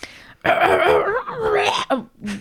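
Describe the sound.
A voiced, rumbling throat clearing interrupts a French-language talk about a bill passed by the Senate. It comes as a loud, gravelly, drawn-out rasp broken into a few rough pushes, ending with a short catch.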